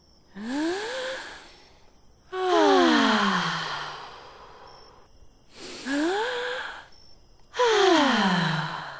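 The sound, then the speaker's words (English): A group of people taking deep breaths together after a music-and-movement activity. Four long breathy surges, some ending in voiced sighs that slide downward in pitch, with quiet pauses between them. “Let's take a few deep breaths.”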